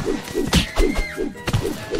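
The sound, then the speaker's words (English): Punching a space synthesizer in the video game Earthworm Jim gives a few dull, punchy thuds and a sustained whistling electronic tone that cuts off, all short, chunky game effects. “Not sure what I just punched there. I punched a space synthesizer.”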